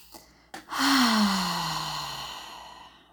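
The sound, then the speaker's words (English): A deep grounding breath: a quick inhale, then a long, audible sighing exhale with a soft voiced tone that slowly falls in pitch and fades. The breath is heard alone, without speech. “I'm gonna take a grounding breath here.”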